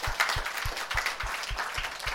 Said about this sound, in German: Put your hands together for the Lord. Klatscht für den Herrn.